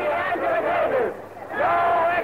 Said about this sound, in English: supported by vociferous crowds of demonstrators on the streets outside.